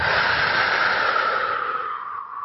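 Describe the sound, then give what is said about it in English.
A deep, slow exhale during a guided breathing exercise: a broad, airy rush of breath that starts full and gradually tapers off, with no talking over it. “So take a deep breath in. And breathe out.”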